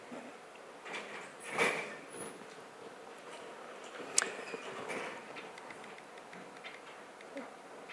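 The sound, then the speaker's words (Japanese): Windows sliding shut after a room is aired during a ventilation break: a few soft scraping slides, then a sharper click and light knocks, all fairly faint over a quiet background. “では窓閉めてください。この換気タイムの余計なお話は終わります。”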